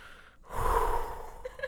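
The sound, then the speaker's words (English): A deep breath drawn in sharply, one long, airy inhale that swells and holds for about a second before easing off, fairly quiet and alone. “She just takes a deep, deep breath.”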